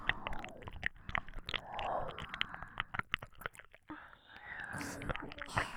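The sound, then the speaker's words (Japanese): Whispered ASMR ear nibbling: close, soft whispering mixed with many moist little bites, chews and clicks at an ear, quiet and uneven in rhythm. “耳甘噛みするとプルプル震えて面白いですね。 お兄さんの耳。”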